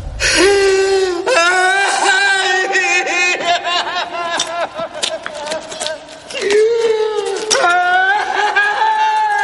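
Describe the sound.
Grieving men sob and wail beside a motionless, bloodied man in a 1997 horror film scene. Loud, tremulous, high-pitched wails waver and bend in pitch, breaking off several times between drawn-out cries.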